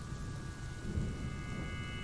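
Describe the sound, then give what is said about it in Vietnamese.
Low thunder rumbles in a deep, steady roll that swells briefly near the middle and then carries on at an even level, with faint steady tones sitting above it. “Tiếng sấm vang trầm lên một cái”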